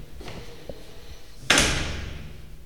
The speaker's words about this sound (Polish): Jestem przed łazienką, otwieram drzwi.